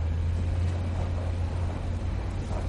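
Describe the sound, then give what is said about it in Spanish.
A car driving along a track between bushes in a film scene: a steady low engine rumble with a constant drone and a faint airy hiss above it, even in level throughout. “Tony conduce su coche por un camino entre matorrales.”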